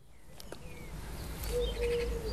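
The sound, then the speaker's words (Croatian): Small birds chirp and whistle in pine trees in front of a terrace at a family home. The calls are faint and scattered, with a soft low rumble underneath. “Volim kad čujemo ove male ptičice kak pjevaju tu na našim borovima ispred naše terase u moje rodnoj kući.”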